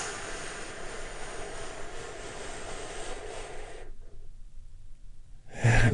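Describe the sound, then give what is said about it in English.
A long, deep breath drawn in during a guided relaxation moment, steady and airy for almost four seconds. A quiet pause follows, then a brief puff of breath at the end. “Join me in taking a big, deep healing breath. Right now, here we go, and”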